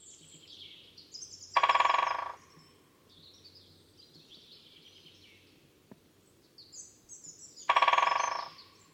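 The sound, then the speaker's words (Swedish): Sounds attributed to a great spotted woodpecker: two loud, short harsh bursts about six seconds apart, with faint high chirps from other birds in between. “Större hackspett.”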